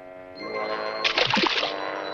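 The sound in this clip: Water splashes as a cartoon character bobs for apples, getting soaked: a brief, noisy splashing burst in the middle over sustained ringing tones.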